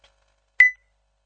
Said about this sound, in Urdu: میں آپ کی کال بند کال بند کر رہا ہوں